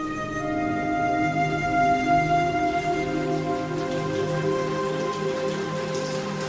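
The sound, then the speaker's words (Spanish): Rain falling on a surface: a steady, even hiss of drops that runs throughout, with faint sustained tones underneath. “Desde hacía ya 15 días la lluvia caía intermitentemente”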